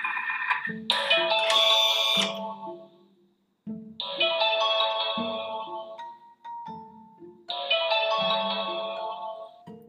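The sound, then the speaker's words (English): A Thermomix TM6 kitchen appliance plays its electronic chime, a bright, layered melodic phrase that sounds three times in a row, with short gaps between the repeats. “That's the sound of the Thermomix.”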